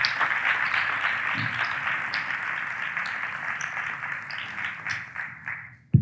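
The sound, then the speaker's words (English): Audience applause welcoming a speaker to the stage: dense, steady clapping that runs about six seconds, thins out near the end and stops. “Let's give him a hand.”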